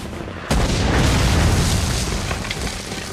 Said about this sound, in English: On the hill, a rebel loads another mortar into the launcher and covers his ears.